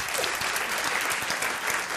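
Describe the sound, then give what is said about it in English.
An audience in a room claps in answer to a question about voting, producing dense, steady applause that keeps an even loudness without pause from start to finish. “Clap if you voted in the 2008 presidential election.”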